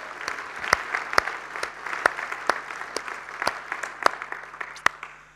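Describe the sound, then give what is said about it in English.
An audience applauds to congratulate fathers, with steady clapping in which many sharp individual claps stand out throughout. “Let's put our hands together and congratulate those dads.”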